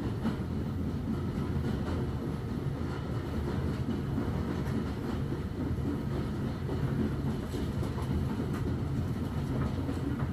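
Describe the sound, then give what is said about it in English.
A departing steam train rumbles steadily, a dense, continuous low roar with faint repeated clatter running through the whole stretch and no voices. “You step aboard and the train begins to huff, chuff, and whoosh.”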